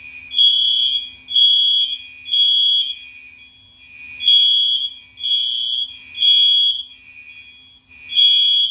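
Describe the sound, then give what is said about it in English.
A building alarm system sounds during a sound check, a loud electronic two-tone signal repeating steadily. High and slightly lower beeps alternate in an even cycle several times, with no voices. “Martial Law building doing their little sound check joint. So I'm not playing the next track until that shit is over.”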